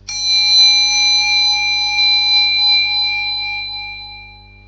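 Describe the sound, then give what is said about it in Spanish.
A meditation bell struck once during a guided breathing exercise. Its clear, bright ringing tone with high overtones sustains and slowly fades over several seconds, and no other sound is heard. “A continuación, va a volver a sonar la campanilla de meditación. De nuevo, debéis seguir su sonido hasta el final.”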